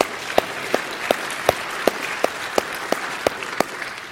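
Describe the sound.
A church audience claps to welcome newcomers, giving about ten sharp, evenly spaced claps in a steady rhythm over a soft, constant background noise.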